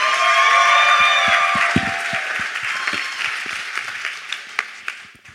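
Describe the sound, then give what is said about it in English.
An audience applauds to welcome a young speaker, with dense, loud clapping and crowd noise that gradually fades, leaving a few scattered claps at the end. “can we make some noise and welcome Dylan Clapp?”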